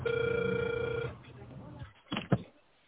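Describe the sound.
A telephone ringback tone sounds while a call is connecting: one long, steady electronic tone lasts about a second, then drops to low hiss with a couple of brief clicks.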